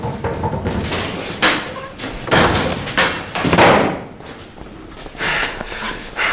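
A door slams shut during a tense indoor confrontation, landing as a few loud, heavy thuds and bangs with breathy snorting noises between them and no talk.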